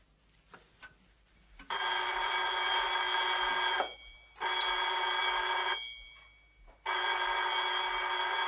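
A telephone bell rings in three long, loud, steady bursts separated by short pauses, with the last burst running to the end. Faint rustling comes before the first ring.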